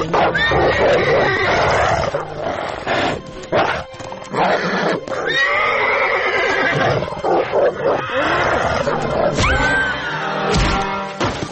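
A horse neighs and whinnies while growls and snarls ring out as a wolf attacks a prince and his horse in a forest. The animal cries are loud and nearly continuous, with many overlapping calls.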